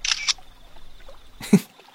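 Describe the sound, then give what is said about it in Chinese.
Phone camera shutter sound effect as a photo is taken: two short, crisp clicking bursts separated by a pause, the second with a brief lower thump, over near silence. “他拿起放在一旁的手机，给黎硕拍了张照片。”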